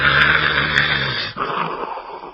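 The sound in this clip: A voice imitating snoring: a loud, low, rasping growl-like drone held alone, its tone shifting about halfway through.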